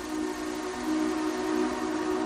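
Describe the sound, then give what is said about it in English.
Rumbling noise of an approaching train, a steady low droning tone held over a broad, even wash of rail noise that swells slightly midway, with no talk. “All right, the train's coming.”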